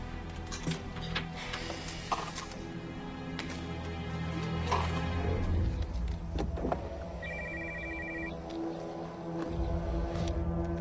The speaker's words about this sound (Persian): من تو کارواشم باهات تماس میگیرم